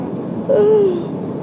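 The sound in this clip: A person yawns to clear their ears on a taxiing plane: a short breathy, voiced tone that slides downward in pitch over steady cabin noise.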